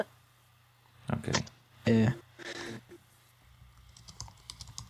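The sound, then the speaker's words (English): Typing on a computer keyboard: faint, scattered key clicks under and between a stretch of talk, growing into a loose patter of taps near the end. “Right, I'm typing. Obviously.”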